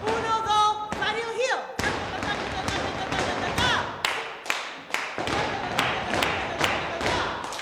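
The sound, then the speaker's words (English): Flamenco percussive footwork by kids in a dance studio, with an instructor leading: many sharp, loud heel-and-toe stamps striking in a quick, uneven rhythm, each a crisp clap-like hit on the floor. “An instructor is showing a studio full of kids the classic percussive footwork.”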